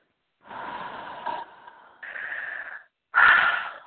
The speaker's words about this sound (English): Deep breath.